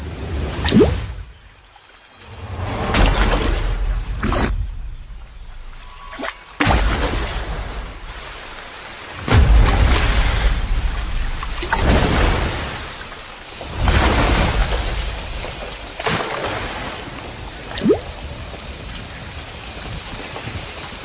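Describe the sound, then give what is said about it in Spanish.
Heavy rain and thunder: a downpour hisses steadily and loudly, broken by several deep rumbling thunder rolls and crashes that swell and fade, with no voices. “Descargando hasta 50 milímetros de lluvia cada hora.”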